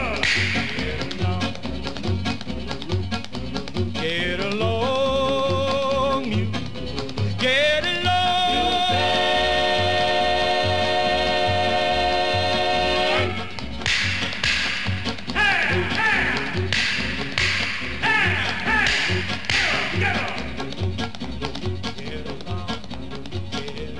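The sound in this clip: Whip cracks used as a sound effect in a 1949 song about a mule train: sharp, snapping cracks repeating over loud, steadily pulsing music.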